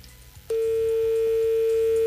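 A telephone line tone sounds after a dropped call: a single steady mid-pitched hum starts abruptly after a brief quiet stretch and holds unbroken to the end.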